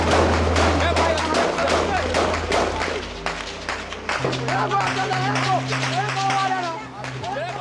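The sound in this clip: Combat footage recorded on the front lines of a war captures gunfire and explosions. Rapid, irregular cracks and heavy thumps repeat many times, with voices and shouting mixed in throughout.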